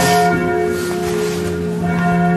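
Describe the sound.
A church tower bell above Marienplatz strikes the hour, a loud, full ringing tone with rich sustained overtones that hums steadily through the whole clip.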